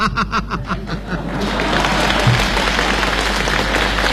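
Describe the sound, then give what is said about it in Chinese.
Audience applause at a comedy stage show, rising out of brief voices and chuckles into a dense, loud wash of clapping with some laughter that carries on evenly to the end. “大家都着急了，只给您鼓掌。”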